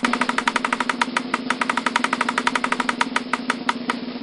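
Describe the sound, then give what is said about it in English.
A prize wheel spins after its spin button is pressed, giving a long run of quick, evenly spaced ticks. The clicks are loud and sharp over a steady low hum, with no voices. “You see the wheel? Just press the spin button. Press it. Go ahead.”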